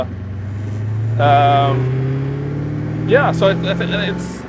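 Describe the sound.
Engine drone of a Koenigsegg CCXR sports car heard from inside the car: a steady low hum that slowly climbs in pitch while people talk over it.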